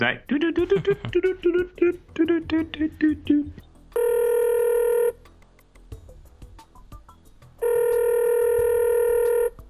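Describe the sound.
A telephone rings twice in long, steady electronic bursts after a person talks briefly, with a quiet pause between the two rings.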